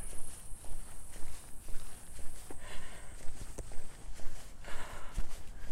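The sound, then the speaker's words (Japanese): Footsteps of someone walking along a new road, a steady rhythm of many steps that continues throughout under a constant background hiss. “完全にこれ新しい道を行ってるよ新しい道歩いてるわ”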